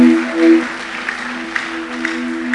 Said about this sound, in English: Let's put our hands together for this great God.